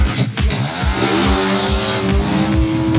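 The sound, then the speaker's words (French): A group of motorbikes revs hard as riders pull wheelies in traffic, loud engine whines sliding up and down in pitch, with a thin high tone running steadily above them. “Pendant plus de 2 heures, la bande enchaîne les roues arrière.”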